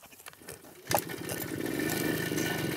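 A motorcycle engine catches with a sudden burst, then settles into a steady, rumbling run that holds fairly even in loudness to the end.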